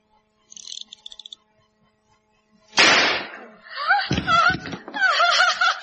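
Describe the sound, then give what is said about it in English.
A single sharp gunshot bursts out in a radio drama as a man shoots himself, a loud crack after near silence, followed by laughter. “Mr. Bentley shot himself dead, and it amused you, too.”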